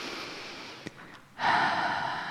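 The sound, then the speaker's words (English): A deep breath drawn in during a guided relaxation, a soft airy hiss that swells suddenly into a louder, fuller rush of inhaled air and holds to the end, with no talking. “Take a deep breath in”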